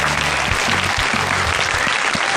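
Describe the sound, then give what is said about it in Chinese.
A studio audience claps in steady, continuous applause, welcoming guests from various clubs to a talk show. The clapping is dense and evenly loud throughout. “那另外现场呢，还有来自各个俱乐部的朋友们，同样把掌声送给他们。”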